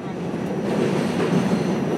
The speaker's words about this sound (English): About a month later, I was on the subway and PATH trains on my way to see her.